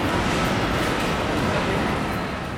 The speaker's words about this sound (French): va entrer en gare voie 3. Éloignez-vous de la bordure du quai, s'il vous plaît.